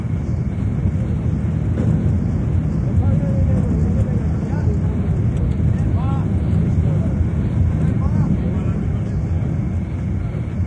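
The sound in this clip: A mine cage descends a South African gold mine shaft at about ten metres per second, making a constant loud rushing rumble with a thin steady whine above it, unbroken throughout.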